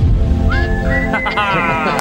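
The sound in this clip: A whistled melody from a song played on the radio: a clear, high whistle enters after a brief start, holds a long sliding note, then carries on over fuller musical accompaniment.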